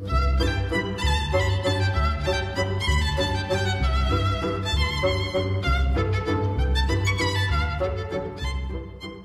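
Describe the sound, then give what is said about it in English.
A very fast waltz from Stravinsky's The Soldier's Tale, a dance the soldier plays for the princess. Bright, dense instrumental music runs over a driving low pulse counted in three, loud and continuous throughout. “The next dance the soldier plays for the princess is a very fast waltz. You will note that the tango was counted in two, but the waltz is counted in three and sounds like this.”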